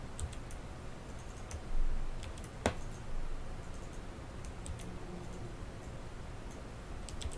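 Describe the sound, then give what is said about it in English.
Computer mouse clicks, including a double-click, come as sharp, faint ticks scattered over a low background hiss. “And then I can just double click on this.”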